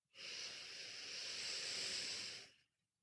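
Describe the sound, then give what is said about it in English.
A slow breath drawn in through the nose, one soft, steady airy hiss lasting about two seconds, faint and alone. “Okay, so empty the lungs of air. Breathe in through the nose for 4 seconds.”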